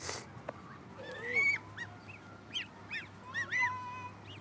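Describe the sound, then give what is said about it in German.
Domestic geese honk in a series of nasal, rasping calls that vary in pitch, fairly loud and repeated many times over a low, steady background hum. “Meine Gänse sind ja sowieso manchmal so ein bisschen ruppig. Das sind ja auch die besseren Wachhunde.”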